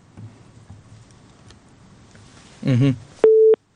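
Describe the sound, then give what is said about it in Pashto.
Telephone busy tone after a dropped call line: a single loud, steady electronic beep stands clear at the end, preceded by a short noisy burst over faint background hiss. “د اردن کې اړیکه شلېدلې ده”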